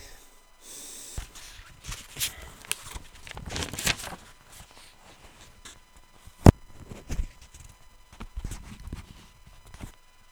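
Horse hooves clip-clop in many irregular steps, a steady patter of sharp knocks with one louder hit midway through.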